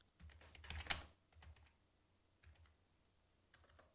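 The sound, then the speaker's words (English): Typing on a computer keyboard: quiet, irregular bursts of clicking keystrokes, with a dense cluster at the start followed by a few sparser taps separated by short pauses. “When I'm tired, I can't type.”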